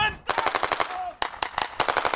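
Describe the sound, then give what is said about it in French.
Rapid automatic gunfire comes from soldiers in winter camouflage charging a target during a snowy military exercise in northern Norway. Two loud bursts of sharp, evenly spaced shots crackle in quick succession. “des soldats en treillis de camouflage hivernal se précipitent vers leur cible en faisant crépiter leurs armes.”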